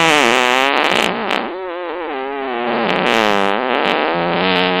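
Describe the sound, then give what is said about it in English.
A fart sound effect: a long, buzzy, rippling tone that wobbles and bends in pitch, loud for nearly five seconds with a brief softer dip partway through. “the tickle fart, the thank God I'm alone fart, splatter fart, barn owl fart,”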